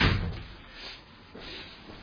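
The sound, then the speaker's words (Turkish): A door is pushed shut with a single muffled thump at the start, then a faint, dull settling noise follows over quiet background hum. “Kapıyı kapatır mısın? Sen kapıyı kapat.”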